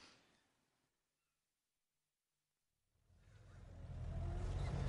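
A car pulls away, its engine and road noise swelling steadily out of near silence over the final two seconds and growing loud and rushing, after a brief faint sound at the very start.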